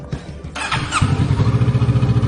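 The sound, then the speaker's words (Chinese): Motorcycle engine during an early-morning test ride. It catches after a brief starting noise, then settles into a loud, steady idle with even, rapid low pulses. “因为这种摩托我不希望很多车的时候试车， 我怕跌倒。”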